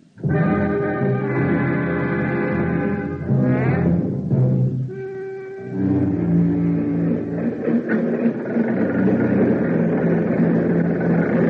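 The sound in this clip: A pump runs on a drilling rig, a loud, steady tonal drone with layered hum, a brief dip and shift in tone midway, then it carries on strongly to the end.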